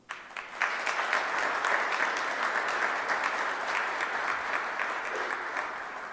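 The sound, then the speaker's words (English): An audience applauds to welcome Milwaukee mayor Tom Barrett in the ornate City Hall chambers, with dense, sustained clapping that starts sharply and holds steady for several seconds before easing slightly. “Let's give him a hand.”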